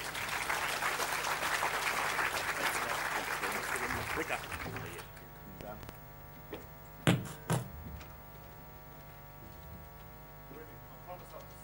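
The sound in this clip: An audience applauds to welcome an economist speaker after his introduction, with dense steady clapping for about five seconds that then stops, leaving a low mains hum and a few faint knocks.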